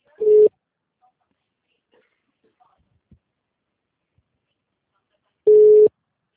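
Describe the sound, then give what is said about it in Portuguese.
Telephone busy tone after a dropped call: two short, steady beeps at a mid-low pitch, one at the start and one near the end, with a long silent gap between them. “A ligação caiu.”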